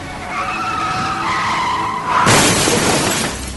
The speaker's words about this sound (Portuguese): Pisa no freio! Pisa!